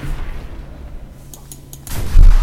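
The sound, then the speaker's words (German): Gunfire at a tank in a video game: a few faint, sharp shots followed by a loud, low boom near the end. “Ich schieß den Panzer ab. Und zack. Und zack. So lange bis er tot ist, der Panzer.”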